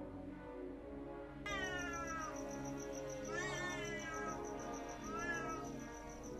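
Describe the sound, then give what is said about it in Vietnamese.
A cat meowing at night: three drawn-out, wavering meows a couple of seconds apart, the first the longest. They are faint over a steady background hum. “Cứ thử tưởng tượng nửa đêm mà nghe cái tiếng mèo kêu thì có mà sợ chết khiếp.”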